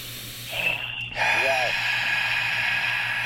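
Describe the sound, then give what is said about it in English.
A deep breath is drawn in through the nose, a loud, airy hiss that swells, dips briefly, then carries on as a long sustained rush of air with a slight raspy, snorting edge. “Deep breaths are my favorite. Wow. Yeah, man. I could never get tired of those.”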